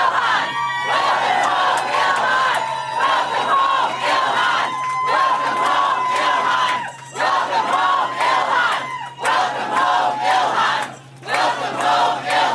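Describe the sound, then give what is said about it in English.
A crowd in Minnesota welcoming Congresswoman Ilhan Omar home: loud cheering, shouting and whoops from many voices, sustained over several seconds with a few brief dips in level. “All right, you hear a very warm welcome. Welcome home, Ilhan.”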